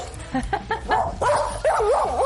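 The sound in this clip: A dog barks in a quick run of about four short yips, then gives longer, wavering whining barks that rise and fall in pitch. The sounds are loud and heard alone.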